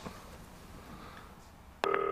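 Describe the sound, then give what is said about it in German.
A phone push notification alert cuts in abruptly near the end: a loud, bright electronic tone that follows a near-silent stretch of faint background hiss. “Oh, was ist das? Kommt hier eine Push-Nachricht rein?”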